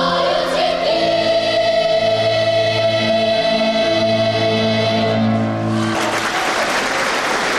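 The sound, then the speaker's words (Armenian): Applause from the audience in a full concert hall after young children from Artsakh sing. Sustained musical tones carry under a steady wash of clapping, then the clapping swells into dense, loud applause near the end. “Իր հեղինակած մեղեդին Արցախցի փոքրիկների շուրթերից հուզված լսում ու ոտքի է կանգնում ծափահարելու համար։”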